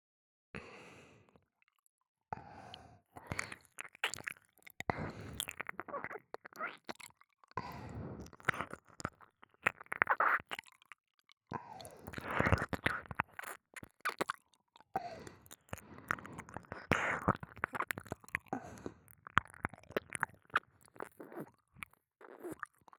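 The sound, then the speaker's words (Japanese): Wet ASMR ear-licking mouth sounds come as soft, intermittent smacks, clicks and slurps with breathy bursts, separated by short silent gaps. “では、今日の耳舐めを始めさせていただきます。”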